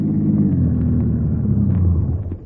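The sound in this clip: Steady low engine rumble of a truck driving into town, holding an even, deep drone throughout with no voices.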